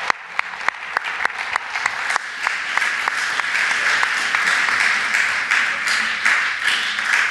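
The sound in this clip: Applause welcomes a guest speaker at a church talk on the Resurrection. A few scattered claps swell quickly into steady, dense clapping that holds at an even level to the end.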